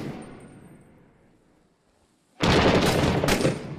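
Rapid automatic gunfire erupts in the video game Six Days in Fallujah. A faint, fading lull gives way abruptly to a loud, sustained burst of shots that continues to the end.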